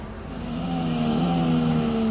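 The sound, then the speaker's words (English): Formula One race car engine revving in a ride simulator at an auto show, simulating laps of the Barcelona circuit: a steady, high, buzzing engine drone that grows louder over the first half and then holds at a strong level. “You can take a ride in a simulator to see what it feels like to be a Formula One race car driver.”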